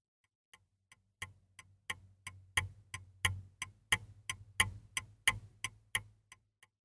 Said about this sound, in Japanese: これは時計です。